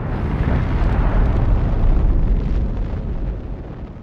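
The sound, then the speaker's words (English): A massive explosion from a rapid nuclear chain reaction: a loud, deep, roaring rumble that swells and holds for several seconds, then slowly begins to fade. “what you want is a very quick, rapid chain reaction where all of this energy is released at once, and then it becomes an explosion.”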